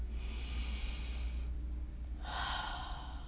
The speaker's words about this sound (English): So perhaps taking another deep breath in and out.